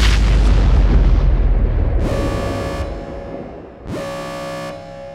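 Explosions and impacts from an attack on a space station: a heavy, rumbling blast opens loud and slowly fades, then two harsh, ringing bursts strike in turn, each leaving a droning tail.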